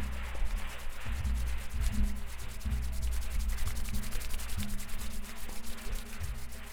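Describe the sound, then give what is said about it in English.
Hands rub quickly together in many rapid, rhythmic swishing strokes, a fairly faint, even friction sound with nothing else heard. “Quickly rub your hands together and feel how the temperature of your skin might be changing.”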